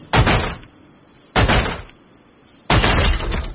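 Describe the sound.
Three heavy crowbar blows on a weathered, unoiled padlock holding a chained door. Each is a loud crashing metallic impact with a short decaying tail, the blows spaced evenly about one and a half seconds apart.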